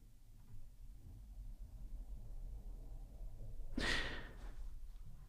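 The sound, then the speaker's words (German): Quiet breathing during a guided breathing exercise, mostly faint over a low steady rumble, with one louder, breathy rush of air standing out near the end. “Und ich atme noch ein, zweimal ein und aus.”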